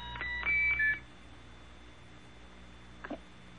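A computer in a radio drama beeps as a quick cluster of electronic tones near the start, including a couple of held higher notes, then falls quiet before one faint, short blip.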